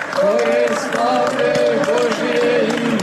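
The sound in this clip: Applause and singing in a church as Metropolitan Amfilohije is embraced, with voices carrying a wavering chant-like melody over a rough wash of clapping, loud and steady throughout.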